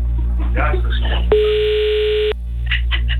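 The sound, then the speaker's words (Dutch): A telephone call is placed, with a single steady electronic tone lasting about a second between stretches of people talking. “We gaan bellen met groep met Kai. Gaat Kai opnemen?”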